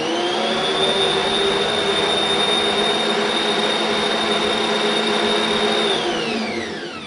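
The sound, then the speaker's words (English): A Bosch kitchen mixer blends on its first, lowest speed with a loud, steady motor whine and a high tonal hum, winding down and dropping in pitch as it stops at the end. “There are 3 speeds on your Bosch, and I was blending on the first speed,”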